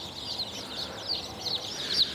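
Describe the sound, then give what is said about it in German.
A batch of chicks cheeps under a heat lamp after being set down, a busy stream of thin, high peeps that swells and dips in level, with no voices. “So viele Küken habe ich auch noch nicht auf einmal in der Hand gehabt. So, aussteigen. Schön unter die Wärmelampe.”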